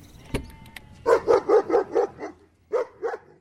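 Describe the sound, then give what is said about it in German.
A dog barks in a quick run of about six sharp, mid-pitched barks, then two more after a short pause, loud and clear over a quiet background with a faint click beforehand. “Kann ich jetzt meinen Hund wieder haben?”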